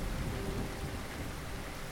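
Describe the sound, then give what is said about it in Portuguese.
A thunderstorm with rain: a dense, steady hiss of heavy rainfall over a low, rumbling undertone, continuous and fairly loud throughout. “Quando uma tempestade aparece e o céu fica feio e escuro, abrigamo-nos muito, muito juntinhos.”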